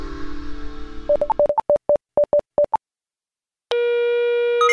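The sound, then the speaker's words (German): Telephone tones sound while placing a call: a quick string of short, high beeps, a pause of silence, then a steady continuous tone. “Ich musste also den House System Administrations Manager anrufen.”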